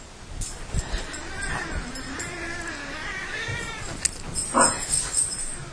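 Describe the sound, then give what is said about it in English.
Cats yowl and caterwaul while dogs harass them: drawn-out, wavering meows rising and falling in pitch, with a few sharper thumps and a louder strained cry near the end. “The dogs are harassing the cats. This is what I really need.”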